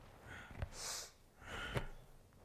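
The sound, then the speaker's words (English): Deep, powerful breaths are taken through the nose during a breathing exercise. Two forceful, hissing breath cycles come at a steady pace, each with a sharp puff of air, and the sound is fairly quiet. “breathing deeply, powerfully. Begin slowly, and start increasing the pace.”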